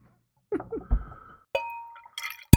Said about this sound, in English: been sent this beer, I guess, yet. Yeah. Let's crack it.